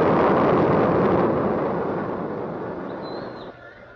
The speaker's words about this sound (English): Lift off! It's going! It's good! A beautiful shot! A beautiful shot!